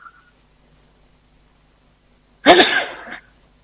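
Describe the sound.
A single sharp sneeze during an Islamic religious lecture. The burst is loud and brief, and it breaks out of near silence with no talking around it.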